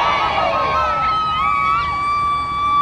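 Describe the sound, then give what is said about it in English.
Crowds celebrate South Sudan's independence with a loud, continuous roar of cheering voices, with shrill sustained tones riding on top. “That's the sound of celebrations in South Sudan.”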